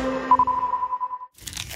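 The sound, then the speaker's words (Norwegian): Brief crunching of someone eating shrimp, a short crisp burst near the end that follows a fading steady tone. “Spiser du reker?”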